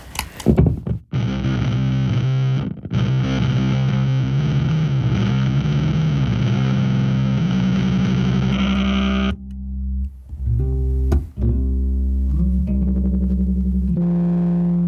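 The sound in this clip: Bass guitar runs through a Phase 100 phaser pedal on a slow sweep for a mellow, swirling tone. Loud sustained notes play alone, with a brief break early on and a sparser, choppier passage near the end.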